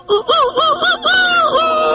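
Rooster crowing in a crowing contest: a loud run of short, wavering honk-like notes that ends in a longer drawn-out call.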